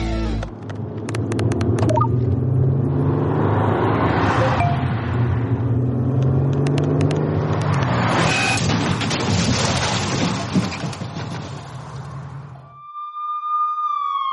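Car driving on a road with a driver distracted by texting: a steady engine rumble and road noise build and swell, then a brief tonal chirp sounds near the end.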